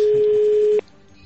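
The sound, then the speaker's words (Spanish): A steady, loud telephone tone sounds as a call is placed to a restaurant in Brussels, holding one even pitch for under a second before cutting off abruptly into faint background hum. “Entonces estamos llamando a Bruselas a un restaurante.”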